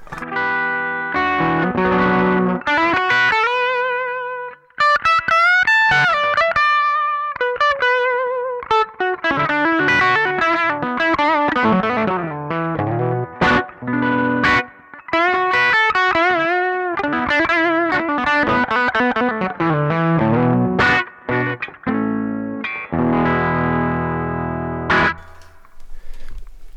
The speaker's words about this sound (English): So without anything else added, this is the sound of the humbucker pickups.